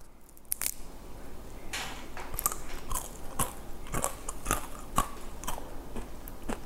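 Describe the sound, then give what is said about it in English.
A thin, crispy almond brown butter cookie is broken, giving many sharp snaps and crackles in an irregular series, faint and crisp with no talking. “it becomes this really thin, crispy cookie. Just to show you how crispy it is, I'm just gonna break one.”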